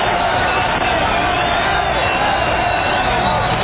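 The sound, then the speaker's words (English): A ballpark crowd roars as fans stand and cheer the visiting Orioles pitcher in an opposing team's stadium. The dense, continuous cheering stays loud and even throughout, with no single voice standing out. “I haven't either, and we're in an enemy ballpark, and they're standing cheering Schmidt,”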